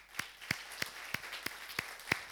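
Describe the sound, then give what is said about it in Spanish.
Congregation clapping during a Sunday church service: about seven sharp claps on a steady, even beat over a soft bed of scattered hand claps, moderately loud throughout. “¿Por qué no le damos un aplauso al Señor?”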